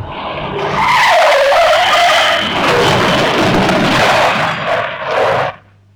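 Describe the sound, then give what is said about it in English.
Tires screech as a car brakes hard at red traffic lights. A loud, wavering squeal lasts about five seconds, then cuts off abruptly, leaving a low rumble. “Hey! Brake! The lights are red! Brake!”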